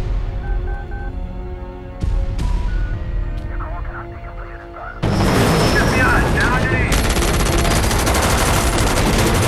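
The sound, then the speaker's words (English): Agents in a helicopter open fire on a sniper. A few sharp, isolated gun cracks lead into a loud, dense and continuous barrage of automatic fire through the second half. “Chopper full of agents guns down the sniper.”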